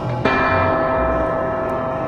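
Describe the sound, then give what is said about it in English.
A bell strikes once, sharply, then rings on in a steady, even sustain of layered tones that holds at full strength to the end without fading. “The bells keep ringing. Why do the bells keep ringing?”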